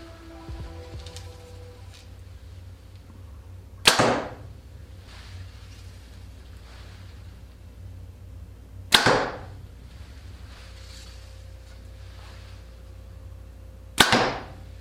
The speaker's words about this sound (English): I hope you had as much fun as I did shooting the new Ventum 30 from Hoyt. This bow was a great shooting bow.